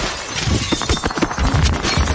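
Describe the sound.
Window glass shatters as someone crashes through a window into a room: a loud, dense burst of breaking glass and clattering shards that runs for about two seconds.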